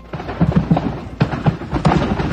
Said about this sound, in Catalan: Aquest és el so de l'incendi, diverses explosions, i és que un d'ells duia esprais que van acabar explotant.